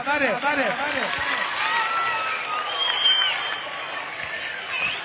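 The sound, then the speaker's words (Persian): Audience at a festive gathering claps hands, a dense continuous wash of applause mixed with cheering. A raised voice is heard at the start. “همه دست بزنن ماشاءالله سمت خانما، ماشاءالله چه خبره.”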